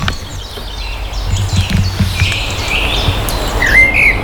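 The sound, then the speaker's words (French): Early-morning birdsong at a château: scattered chirps and tweets over a steady low background hum, with a brighter, louder chirp near the end. “T'entends les oiseaux.”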